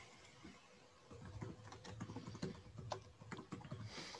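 Faint typing on a computer keyboard: a quick run of soft key clicks begins after a moment of quiet and continues unevenly to the end.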